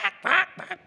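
A duck quacks a few times in quick succession: short, nasal, raspy calls, with a longer, louder quack in the middle, all heard alone.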